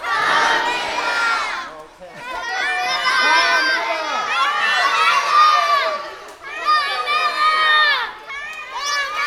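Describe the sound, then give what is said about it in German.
Children shouting together for carnival sweets at the Cologne carnival, a loud, dense chorus of overlapping high voices that runs almost continuously, with two brief dips in volume. “Wir haben Karmelle gerufen und die haben Nutella-Riegel von mir bekommen.”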